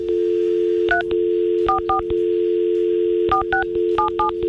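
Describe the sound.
Telephone keypad tones as a number is redialed on a phone line: short beeps in quick bursts of two and three over a continuous, steady dial tone.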